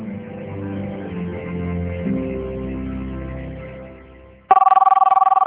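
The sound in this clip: A telephone ring tone heard while placing a call, cutting in abruptly as soft background music fades out, then sounding as loud, rapid, warbling pulses that continue to the end.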